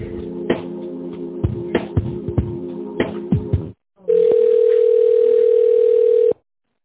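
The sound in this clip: A steady telephone tone sounds as an office call is transferred: a single held beep lasting about two seconds, following a run of short clicks and a brief moment of silence.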